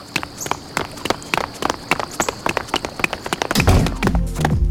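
Quick running footsteps of people heading to a New Year's Eve party, many rapid taps in an uneven patter that swells into a louder, denser rush near the end.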